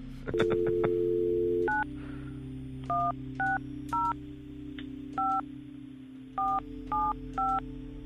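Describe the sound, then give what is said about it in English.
Touch-tone keypad beeps as someone dials an international number on a phone. A steady tone comes first, then seven short two-note beeps in an uneven rhythm over a low hum. “Dialing the number is a sobriety test in and of itself.”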